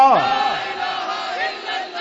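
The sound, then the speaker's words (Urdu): A crowd chants a Pakistani political slogan in unison, many voices joined in one loud, sustained shout that carries through the whole two seconds. “اے ہن نعرہ لگا، پاکستان کا مطلب کیا”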